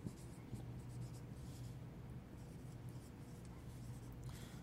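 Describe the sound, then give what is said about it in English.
Hand writing, with a steady dry scratching and scraping of a pen or marker stroking a surface, continuous and fairly soft over a low background hum. “Let me write it out for you guys first.”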